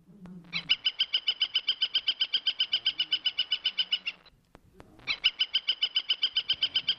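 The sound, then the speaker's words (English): A woodpecker calls in two long, persistent runs of rapid, evenly spaced, high-pitched notes, loud and clear, separated by a short pause; no voices. “And woodpeckers are not just distinguished by their drumming sounds that they make on trees, although that's certainly a lot of what they do. They're distinguished by their voices. Listen to how persistent this fellow can be, or lady.”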